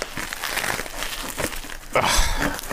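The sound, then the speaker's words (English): Paper crinkling and rustling as a gift-wrapped bottle of liquor is unwrapped, a continuous dense crackle of handled wrapping that grows louder and busier near the end. “I've been unwrapping booze since before you were born. That's so very true. Man, this is wrapped good, too.”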